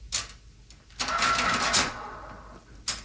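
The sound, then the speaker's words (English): An old historical cash register rattles and clacks, a short mechanical tap, then a sustained busy whirring clatter of about a second, and a final faint click, all fairly quiet. “there's a special historical cash register. It's historical.”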